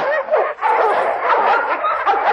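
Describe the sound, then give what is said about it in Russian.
A voice imitates dogs in a village barking, with a dense, continuous run of yips and whining yelps and one brief dip early on. “Собаки брех подняли, спасу нет.”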